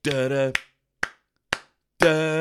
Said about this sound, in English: So it opens with the most out of sync white people clapping I've ever heard, mate.